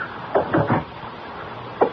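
Knocking at a door: a few dull wooden raps come in a quick cluster, then after a pause one more knock follows, all fairly soft over a steady hiss.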